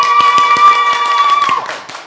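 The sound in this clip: An audience at a presentation about a Sacramento ride code claps in scattered, uneven taps over a steady held tone that dips and fades near the end.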